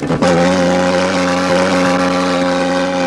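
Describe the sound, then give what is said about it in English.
A motor-driven smoker machine fogging trees: a loud, steady engine drone with strong humming overtones that starts abruptly and holds constant, like a propeller or boat motor. “Is that the motorboat that took the body away? No, that's the thing. They were. It was a smoker, right? It was the smoker for the trees.”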